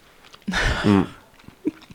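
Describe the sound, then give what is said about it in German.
Someone chews rhubarb cake with crunchy walnuts and a soft, sweet dough, making moist mouth sounds alongside a brief hummed 'mm' of enjoyment, then a quieter chew toward the end. “Und ja, dann dieser Crunch von der Walnuss und dieser ganz feine Teig, der auch so schön süß ist, dass das so den Rhabarber so ausgleicht.”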